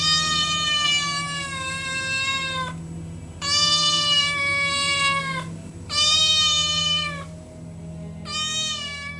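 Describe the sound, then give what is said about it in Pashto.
A cat on a window ledge meows four times, each meow long, drawn-out and clearly harmonic, loud and separated by short gaps, over a faint steady low hum. “پیشو له بهره د کړکۍ ژی ته راختلې وه، میو میو یې کاوه.”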